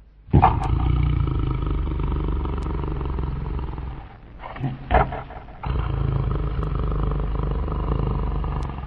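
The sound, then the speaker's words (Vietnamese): Loud, rough rumbling attributed to a wolf snoring in deep sleep on a grassy meadow: a long sustained growl-like drone, a brief break with a couple of short bursts, then another long stretch of the same heavy rumble. “dê mẹ trông thấy sói đang ngủ say, ngáy ầm ĩ.”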